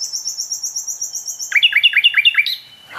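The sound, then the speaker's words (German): Nightingale song: a quick run of thin, high repeated notes, then a lower series of loud swooping whistles and a final sharp note, heard alone. “Also wir stehen jetzt bei der Hotspot Nachtigall. Und das ist auch die von der ersten Aufnahme.”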